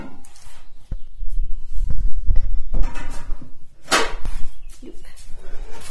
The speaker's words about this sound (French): et nous allons donc fermer l'alambic